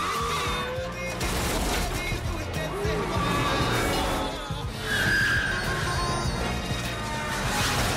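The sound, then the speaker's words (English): A futuristic car chase with police in pursuit through the streets of a futuristic New York: a dense, continuous roar of engine noise and rushing whooshes, studded with crashing hits and thin whining tones, loud throughout. “Behind the wheel is the protagonist, Corbin Dallas, played by Bruce Willis, with the police in pursuit.”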